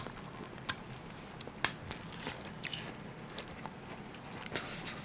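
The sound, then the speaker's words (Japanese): Quiet, crisp chewing of a home-made scotch egg with minced meat, several irregular crunching bites and soft mastication sounds with no talk. “確かにスコッチエッグすげえ久しぶりに食べるな”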